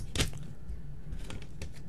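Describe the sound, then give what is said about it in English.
Paper notes rattle with a few short crinkly rustles, the loudest right at the start and softer ones later, over steady background noise. “Sorry for the rattling paper. I've got my notes. I should just take them out.”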